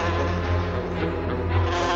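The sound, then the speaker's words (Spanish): Three large wasps released from a jar fill the air with a steady, continuous buzzing drone that holds at an even loudness throughout, with no talk. “Vuelca el bote y salen tres avispas enormes para Gulliver.”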